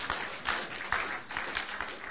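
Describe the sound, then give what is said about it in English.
Audience clapping for first-time dads at a gathering: a faint, sparse series of scattered hand claps with uneven spacing, lasting about two seconds. “Come on, give them a clap. First time dads.”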